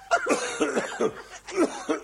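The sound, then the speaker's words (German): A coughing fit after choking on something: many short, hacking coughs in an uneven, rapid rhythm, some with a wheezy, almost laughing edge, moderately loud and continuing through the whole stretch. “Sag einmal, woran hast du dich denn jetzt so verschluckt? Ich weiß nicht, wenn ich das wüsste. Und so einen komischen Husten hast.”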